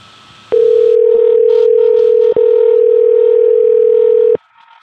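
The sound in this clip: A telephone tone on an outgoing call, a loud, steady, unchanging hum that runs for almost four seconds with one very short break in the middle, then stops.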